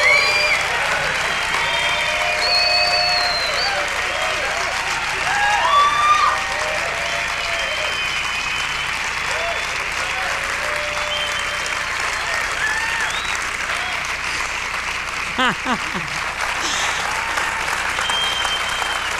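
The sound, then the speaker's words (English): Applause from an audience rising to a standing ovation at the Upfront Summit 2017 Defy Ventures presentation: steady, dense clapping that holds at an even loudness for nearly twenty seconds. “You got a standing ovation and one word hasn't even come out of your mouths yet.”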